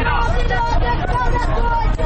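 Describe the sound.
Busy market crowd in Kabul's Pul-e Khishti and Timur Shahi area, where street traders sell SIM cards: a loud, constant hubbub of many overlapping voices chattering together without pause.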